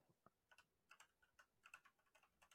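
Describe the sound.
Keyboard typing as a search is entered, a steady run of many quick, light key clicks with uneven spacing, faint and alone without any voices.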